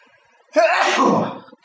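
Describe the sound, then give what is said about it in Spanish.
A single loud, explosive sneeze bursts out after a brief quiet intake of breath and lasts about a second. “Salud. Va a estornudar dos veces más, porque siempre estornuda.”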